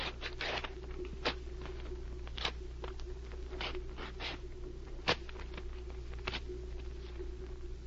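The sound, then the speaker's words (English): Papers are torn by hand into small pieces, with short, sharp ripping sounds scattered irregularly and soft rustling between them, faint and with no voices. “Now, let's go over to this table, watch the papers as I tear them. We don't want to lose any of the pieces.”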